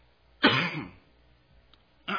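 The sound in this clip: Someone clears their throat once, a short, raspy, guttural burst that is fairly loud and lasts about half a second before quiet returns.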